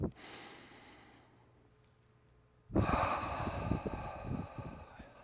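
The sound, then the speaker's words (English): People take deep breaths during a guided meditation inside a building. A soft, fading breath is followed by a louder, longer rush of breathy air. “Just take a few deep breaths.”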